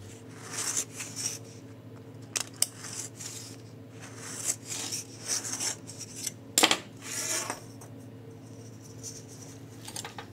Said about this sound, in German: Dann nehmen wir unseren Schokoladebiskuit. Der wird aus dem Ring rausgeschnitten.